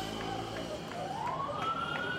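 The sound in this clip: An ambulance siren sounds in a street blocked by protester barricades, a steady tone rising in pitch over constant, fairly faint street noise.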